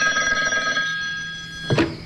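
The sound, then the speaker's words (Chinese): A telephone bell rings in a single steady metallic trill that fades out, then a short sharp clunk follows after a brief gap. “戴笠刚刚走进办公室，就接到了何总司令的电话。”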